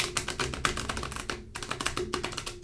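Shuffling of a large deck of cards: quick, crisp runs of papery taps and flutters repeat steadily throughout, moderately quiet and without talk.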